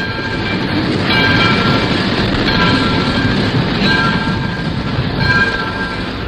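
A train rolls along rails as it nears a station: a steady, loud rumble with a high metallic ringing tone above it, swelling slightly a few times and running throughout without pause.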